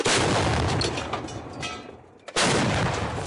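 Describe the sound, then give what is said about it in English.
130mm artillery shells being fired: a loud booming blast rumbles and fades over about two seconds, then a second sharp, heavy detonation cuts in near the end. “The army does not sleep either, pounding them with 130mm artillery shells. Fire!”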